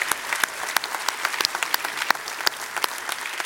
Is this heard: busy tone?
no